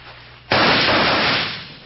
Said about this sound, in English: Now start shooting.